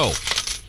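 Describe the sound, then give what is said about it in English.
Coins drop and jingle in a brief burst of bright metallic clinks that quickly thin out, with a short spoken phrase over them. “This is the sound of money,”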